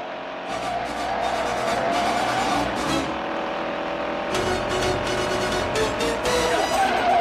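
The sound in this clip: Tires screech during a film car chase involving a laundry van: a loud, sustained, whining squeal over roaring engine noise, with brief gaps before the screeching returns.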